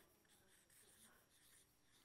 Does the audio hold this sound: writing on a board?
yes

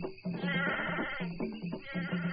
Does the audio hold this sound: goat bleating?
yes

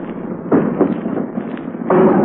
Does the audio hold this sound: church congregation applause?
no

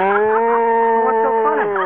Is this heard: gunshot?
no

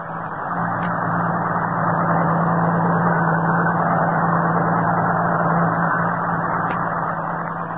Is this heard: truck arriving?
yes

